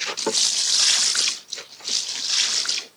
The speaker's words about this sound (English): Now we add enough liquid to cover.